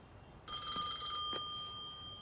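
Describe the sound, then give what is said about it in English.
A telephone rings at Grey Gardens: a bright, shrill bell trill lasting under a second, then a fading tone that lingers. No voices are heard. “Edie goes to answer the phone.”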